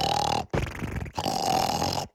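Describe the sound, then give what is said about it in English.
Loud snoring from someone about to be fitted with an anti-snoring device: three long, harsh, rasping snores separated by brief silent gaps, with the start of another at the very end. “So your snoring will go from this”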